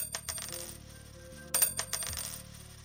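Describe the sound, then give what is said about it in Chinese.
Two small copper coins dropped into a crevice give light metallic clinks and jingles in two brief clusters, the second brighter and slightly louder. “铜钱很小啊，但是仍然有声音。”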